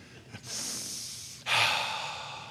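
A deep breath drawn in to take in the scent from a diffuser: two long, airy breaths, the second louder and fuller, after a brief faint sniff, with no talking.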